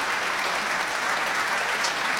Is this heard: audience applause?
yes